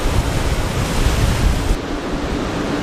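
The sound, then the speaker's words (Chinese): Rough sea waves crash under strong wind during a typhoon in a turtle bay, a loud, continuous roaring wash of noise with buffeting gusts throughout. “因为台风影响，这一天的海龟湾内风大浪急，虽然有自稳系统帮助王胜伟控制潜水器的平衡，但台风让整个大海波涛汹涌”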